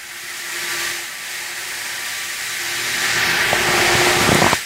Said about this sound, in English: That's the sound of a whole lot of water.